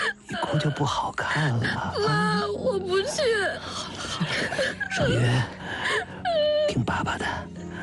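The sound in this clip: A young woman cries and wails in a wavering, moaning voice, broken by gasps and whimpers. The sobbing comes in loud bursts with short breaks between them.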